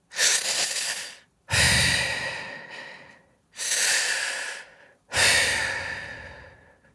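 A person breathing slowly and audibly: four long, hoarse breaths, each swelling quickly and then tapering off, separated by short silent pauses, with the last one fading away.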